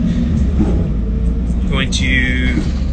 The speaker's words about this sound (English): We're on the bus traveling to Phoenix.